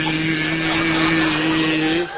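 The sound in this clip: A voice imitates an aircraft engine with a steady, buzzing hum held at an even pitch and loudness for about two seconds before it breaks off.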